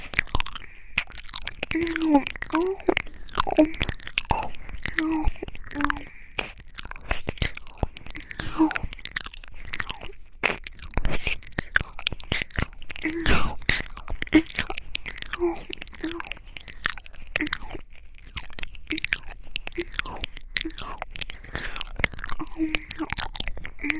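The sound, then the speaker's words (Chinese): Crunchy chewing of a homemade fried chicken cutlet: many crisp, crackling bites and chews in a steady, fairly loud stream with no clear pauses, heard on their own. “妈妈的鸡排好好吃”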